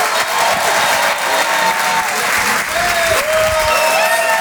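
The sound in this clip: An audience at the Rire et Chanson Comedy Club in Paris applauds a comedian during a stand-up show. The clapping is loud, dense and sustained, holding steady from start to finish with no voices over it.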